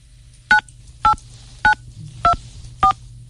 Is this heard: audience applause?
no